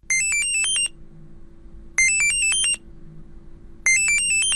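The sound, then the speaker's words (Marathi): Phone ringtone of an incoming video call: a bright, rising chime phrase plays three times with even pauses between. A faint low background murmur fills the gaps. “अरे, सुखदाचा video call. अरे घे ना.”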